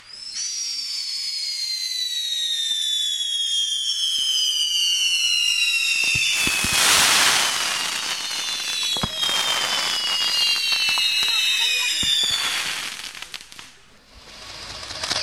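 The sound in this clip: Fireworks reworked from machine-gun fire: several whistling tones slide downward in pitch, then loud bursts of crackling and popping pile up before fading near the end.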